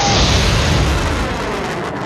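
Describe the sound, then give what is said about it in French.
A lit firework rocket explodes in a loud, sustained, rumbling boom that fills the whole clip and slowly fades. “j'ai allumé une fusée Les fusées, ça explose”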